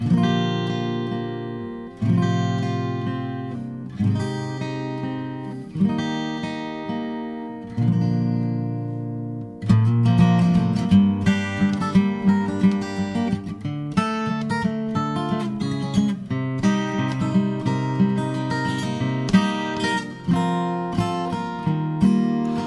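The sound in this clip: A song by a local musician played on the radio: slow, ringing instrumental notes with short pauses, then a steady rhythmic run of plucked or struck tones, each note decaying, moderately loud with no talk over it.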